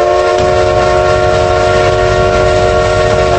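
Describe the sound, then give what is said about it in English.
Rumble of a maintenance locomotive on a rail line at dawn, beyond debris on the track; a loud, steady mechanical roar with a sustained tonal whine runs unbroken throughout. “A maintenance locomotive approaches on the other side of the debris. As it comes to a stop”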